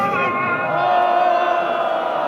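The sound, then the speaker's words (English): A crowd of protesters boos the Muslim call to prayer in a main square in Isfahan, Iran, shortly before a public execution. The many voices merge into one sustained, droning roar with a tonal, harmonic edge throughout. “Those are protesters booing the call to prayer minutes before two people accused of treason are hanged on July 28th in a main square in Isfahan in central Iran.”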